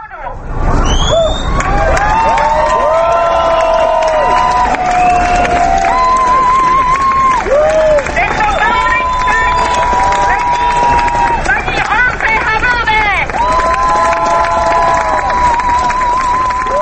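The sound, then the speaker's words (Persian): A crowd of marchers in a Prague street procession, retracing a November 1989 route beside the Vltava: a steady, loud hubbub of many people with sustained wavering tones running through it and scattered cheering. “در راهپیمایی به تقلید از 20 سال پیش مردم همان مسیر گذشته را طی کردند”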